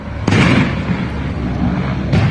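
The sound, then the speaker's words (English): Gunfire and grenade blasts from a helicopter circling the Supreme Court in Caracas, Venezuela, firing at ground targets: two heavy bursts, one near the start and one near the end, with a dense, rumbling roar of noise between them. “That's the sound of a helicopter circling the Supreme Court in Caracas, dropping grenades and firing at targets on the ground.”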